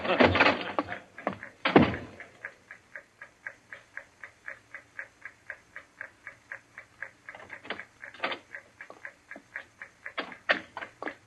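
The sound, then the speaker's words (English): Steady ticking from the time fuse of a bomb: many even, evenly spaced ticks in a regular rhythm, after a couple of louder knocks at the start. “They're taking you here as the time fuse for the bomb that's going to blow out this place. It's all set. You won't have long to wait.”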